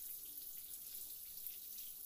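Water runs steadily from a tap for a shower while the bathing temperature is being adjusted. It makes an even, continuous hiss with no breaks and no voices.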